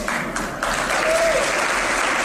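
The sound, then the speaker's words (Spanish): An audience applauds after a political speech at a private university, with dense, steady clapping that lasts about two seconds. “se ha llevado el aplauso del público al decir esto”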